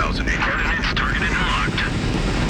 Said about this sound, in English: We have main engine start. 4, 3, 2, 1, 0. X. Thrusters at full.